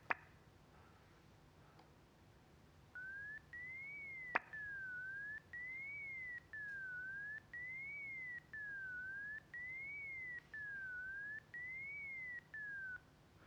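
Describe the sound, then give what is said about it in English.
A pure electronic tone sweeps smoothly up and down in a steady zigzag, broken by short silent gaps into a string of even segments at a constant level. A quiet stretch comes before it. “So this is a tone that's gliding up and down, but there are gaps in it, so you hear discontinuities, hopefully.”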